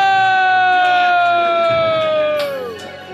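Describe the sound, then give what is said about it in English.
A comedy club crowd cheering and whooping as the evening's final comic is introduced, a dense, sustained roar over a steady tone that slides down in pitch near the end. “Ladies and gentlemen, your final comic of the evening, please put your hands together for Ray DeVito!”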